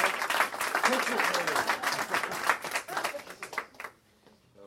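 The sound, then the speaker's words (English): Applause and cheering at an event honoring the people who started it twenty years earlier. Clapping is mixed with voices calling out, then thins and dies away near the end. “So let's have a round of applause for people who put this together 20 years ago and made it great.”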